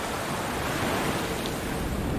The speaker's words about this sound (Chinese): 在潮之洲，潮水往复。